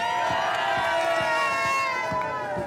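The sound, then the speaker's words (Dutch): Crowd cheering along the roadside at the Four Days Marches, a loud, steady wash of many voices with high shouts and whoops that holds for about three seconds. “Nou, je hoort het wel, het staat rijen dik hier ook langs de kant.”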